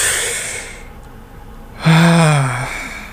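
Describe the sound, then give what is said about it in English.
A deep breath drawn in as a long, airy hiss, then a pause and a loud, drawn-out voiced exhale like a sigh that falls slightly in pitch before fading. “Let's all take a second. Take a nice deep breath in.”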